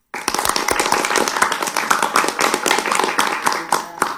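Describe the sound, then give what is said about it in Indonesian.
Audience applause after an Islamic sermon: dense, rapid hand clapping that starts abruptly and stays loud and steady for about four seconds. “Berikan aplaus yang meriah dulu dong untuk kakak Giar kita.”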